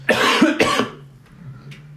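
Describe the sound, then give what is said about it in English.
A person coughs twice in quick succession: two loud, rasping bursts about half a second apart, then quieter breathy noise. “Well, it's quite fitting that you coughed, actually”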